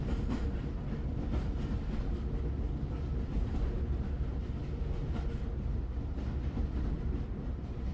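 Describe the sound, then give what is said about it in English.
A railroad train rolling along, with a loud, steady rumble and a faint, regular clickety-clack running underneath. No voices. “Oh, I know where I am now, she suddenly thought. I'm on a railroad train, just as when Arthur and Mabel brought me from the country.”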